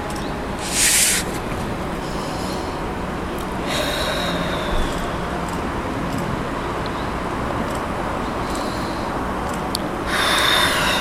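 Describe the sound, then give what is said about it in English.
Deep breathing during a breathwork exercise: a few forceful, airy breaths rise out of a constant hiss, with long quiet stretches between them. “We're here for two more rounds of breath.”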